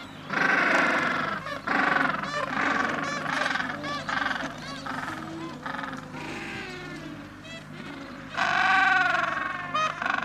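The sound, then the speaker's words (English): A crowded colony of hungry chicks calls to be fed by their parents: a loud, dense chorus of overlapping honking, bleating cries with strong harmonic tone that rises and ebbs across the stretch. “the chicks who are very hungry and they want to be fed by their parents. There's lots and lots and lots of them here, and it's an amazing sight, and it's amazing to hear this.”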